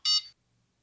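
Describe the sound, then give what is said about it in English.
A recording device gives a single short, high-pitched electronic beep prompting verification of a scan. The beep sounds alone and is followed by near silence. “Right after you record, it starts beeping again because it wants you to verify your scan.”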